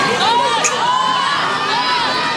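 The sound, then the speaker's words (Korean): Mexican children cheer at the first open training session of the South Korean national football team, a continuous mass of high, overlapping shouts and cries that stays loud throughout. “축구 대표팀의 첫 공개 훈련 현장에 몰려든 멕시코 어린이들이 태극기를 흔들며 환호합니다.”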